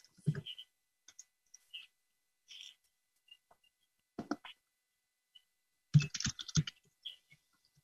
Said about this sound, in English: Oh, stop putting up a banner ad when I'm trying to type.